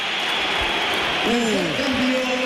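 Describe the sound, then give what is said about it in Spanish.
Crowd applause fills the Bernabéu stadium as Vinicius is substituted during a football match, a steady dense wash of clapping and crowd noise throughout, with a male voice talking over it in the second half. “Va a entrar Álvaro Carrera, se va Vinicius, que ahora él aplaude al Bernabéu, se lo devuelven”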